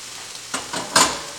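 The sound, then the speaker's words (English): Beef and peppers saute in a skillet for an easy Philly-style meal: a low sizzle builds into two louder bursts of stirring and frying, each fading quickly. “It's going to take a little bit to break down the vegetables, let them get sauteed. The beef's starting to look good.”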